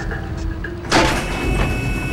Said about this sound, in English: The metal doors to the engine room slide open.